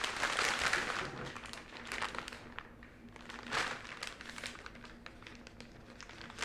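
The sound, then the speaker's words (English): Packaging crinkles and rustles during an unboxing: faint, irregular crackling and crunching that continues throughout, with a few sharper bursts and no talking. “Are we doing an unboxing on the podcast? Yeah. On the 10th episode? Yeah. That's exciting. What is this?”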